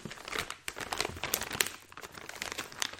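Crinkling, scraping and crunching as a stiff, hard-to-open large tube holding a poster is worked open, with faint, irregular rustling bursts and no voices.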